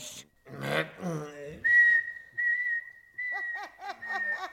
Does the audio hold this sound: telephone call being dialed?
no

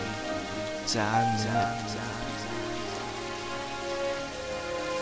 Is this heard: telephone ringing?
no

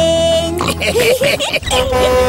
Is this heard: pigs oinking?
yes

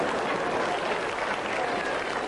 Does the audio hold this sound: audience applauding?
yes

